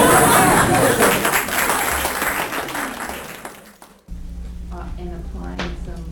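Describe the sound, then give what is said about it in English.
Audience applause, loud and dense at first, then steadily fading over about four seconds before it cuts off and a voice begins talking. “That's right, let's all applaud.”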